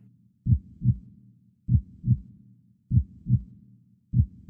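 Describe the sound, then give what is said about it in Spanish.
A heartbeat sound effect in a horror story reading: low, muffled lub-dub thumps in about four evenly spaced double beats, with the last one cut short and no voices. “Pero el latido crecía cada vez más fuerte, más fuerte. Me pareció que aquel corazón iba a estallar”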